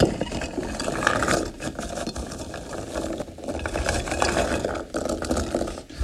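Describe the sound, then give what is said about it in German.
Glossy red rose hips, cut open with their caps removed, are stirred in a pot. A dense, continuous rattling clatter swells and eases unevenly throughout. “Die Hagebutten, die glänzenden roten Hagebutten, liegen jetzt in diesem Topf. Jetzt schon etwas geschnitten, etwas aufgeschnitten, ohne das Käpplein. Und jetzt rühren wir die mal um.”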